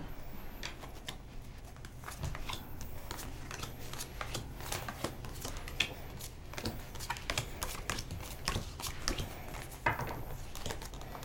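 A deck of cards used for a spiritual card reading is shuffled, making a continuous quick flurry of light riffling and crisp papery snaps that runs throughout with no talk.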